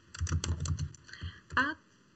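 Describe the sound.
Typing on a computer keyboard: a quick run of light keystrokes, a brief pause, then a louder, heavier press near the end before the sound stops.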